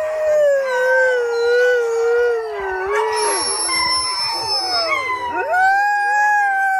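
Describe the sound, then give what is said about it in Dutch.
Dog howling in long, wavering, drawn-out tones: a few sustained howls that bend up and down in pitch. One howl trails off in the middle before another rises clearly near the end. The howling is fairly loud, and no one speaks. “dit is toch echt een huilende hond inderdaad”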